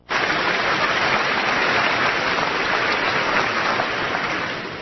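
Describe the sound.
Dense, continuous audience applause fills the whole stretch at a steady, loud level, easing off slightly at the very end.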